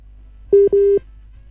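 Telephone ringback tone heard while a call is placed: two short, steady, mid-pitched electronic beeps in quick succession, the second slightly longer, clear and alone over faint low hum.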